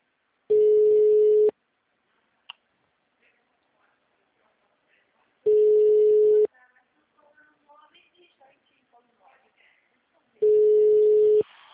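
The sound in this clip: Telephone ringing tone on a call, three steady mid-pitched one-second beeps spaced evenly about five seconds apart, with faint quiet sounds in the gaps between them.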